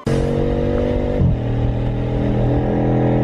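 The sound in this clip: A car engine pulls away and keeps driving with a loud, steady, humming drone. Its pitch drops once partway through, then holds level.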